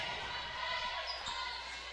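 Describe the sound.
A basketball dribbled on a court during a game gives a few dull, low bounces beneath a steady wash of crowd noise.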